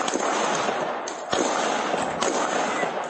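Gunshots are caught on a police officer's body-worn camera: a few sharp cracks that punch out of a constant, harsh, noisy rush.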